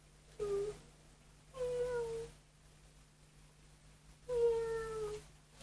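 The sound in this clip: A person imitating a cat's meow: three soft, faint, high mewing calls, each with a gently falling pitch and spaced by short pauses.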